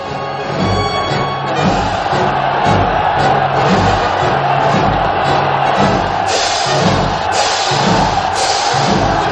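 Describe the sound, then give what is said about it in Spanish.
A large crowd roars, cheers and acclaims a Roman consul riding past in a chariot in ancient Rome. The din is loud, dense and unbroken, with shouts rising out of it throughout. “saluda sonriente al público que le aclama”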